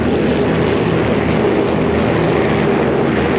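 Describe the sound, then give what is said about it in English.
A bomber plane flying over a city makes a steady, continuous droning rumble. Its low hum and broad rushing noise stay at a constant level throughout, with no other sounds. “As the plane soars on over the city”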